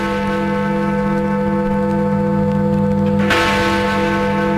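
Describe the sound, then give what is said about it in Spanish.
Deep chiming of the great clock bell in the tower of the Palace of Westminster, a loud sustained ringing hum with rich overtones, renewed by a fresh strike near the end. “el nombre de la gran campana del reloj situado en el Palacio de Westminster, la sede, naturalmente, del Parlamento del Reino Unido.”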